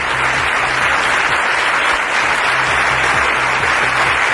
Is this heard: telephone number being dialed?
no